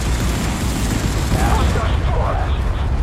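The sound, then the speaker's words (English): Rapid, continuous machine-gun fire in the space shooter video game Phantom Galaxies, a dense unbroken rattle that runs the whole clip, with a voice talking excitedly over it. “Oh! Whoa! I got like a righteous machine gun.”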